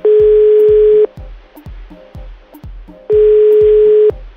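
A telephone line tone sounds while a call is being placed: two long, steady, mid-pitched tones, each about a second, separated by a gap filled with faint, regular low thumps. No voices.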